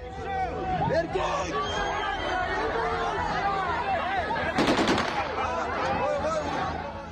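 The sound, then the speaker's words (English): Police fire gunshots into the air at a protest in Dagestan. A quick burst of sharp cracks cuts through dense crowd shouting and chatter that continues throughout. “Police fired shots in the air at a protest in Dagestan.”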